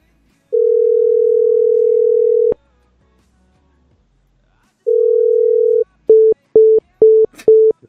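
Telephone line tones while placing a call: a long steady tone, then a pause, another long tone, and then a rapid string of short, evenly spaced beeps at the same pitch.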